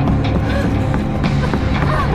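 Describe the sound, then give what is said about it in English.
Running footsteps in an audio drama scene of a woman fleeing through an asylum. There are quick, evenly spaced steps over a dense, steady background bed. “As he turned around, Rachel ran in the other direction.”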